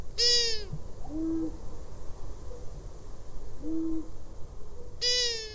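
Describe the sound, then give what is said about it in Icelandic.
Long-eared owl calls: high, wailing, cat-like cries rich in harmonics open and close the sequence, with a few short, low, moaning hoots between them. No voices. “Eyrugla. Eyruglan gefur frá sér djúp og stynjandi hú, er þó einnig með kattarlega vælur og þvoglumælt flaut líkt og hvíjú.”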